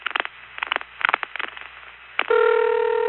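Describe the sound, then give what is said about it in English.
Multi-frequency network tones key a number into a switch from the test board of a 1974 telephone central office in Winter Garden, Florida. A quick series of short, band-limited tone bursts gives way to a steady held tone. “And of course here, you can actually hear someone dialing numbers, not with the touch tones, but with the multi-frequency tones that were used in the network.”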